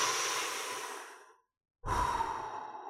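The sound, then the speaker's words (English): A deep breath: two long, airy breath sounds separated by a short silent pause, clear and fairly loud with no talk. “take a breath with me right now”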